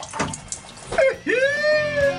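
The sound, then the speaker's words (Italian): Automatic self-cleaning bidet toilet spraying water, with brief noisy bursts followed by a whirring tone that sweeps upward and then holds steady over a soft hiss. “ecco i famosi cessi che ti puliscono il culo automaticamente. Tac, selezioni, bagno bidet e poi muovi. Tac, esce e ti spruzza.”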